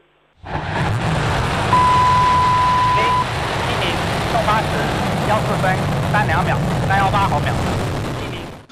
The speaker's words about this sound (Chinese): 8时14分，长征7号遥11运载火箭点火起飞。